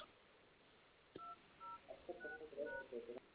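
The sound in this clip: Telephone tones sound as a call to a restaurant is transferred to the administrator: a quick series of short, clean electronic beeps at a few different pitches, faint and heard alone.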